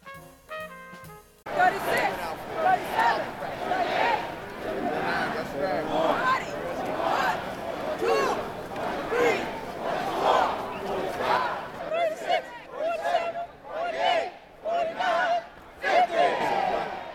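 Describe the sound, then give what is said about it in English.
A protest crowd chants at a demonstration for justice for Sean Bell, many voices shouting together in loud rhythmic surges that become clipped, evenly spaced calls toward the end. “along with the sounds of justice that echoed forth from the protest participants.”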